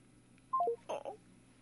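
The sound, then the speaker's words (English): Telephone keypad dialing tones: three quick beeps stepping down in pitch, followed by a second short burst, set against a quiet background hum. “I'm going to try to dial her back in”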